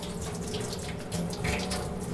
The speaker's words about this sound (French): un petit pinceau. De l'eau courante.